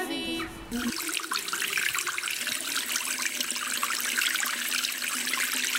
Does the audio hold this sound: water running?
yes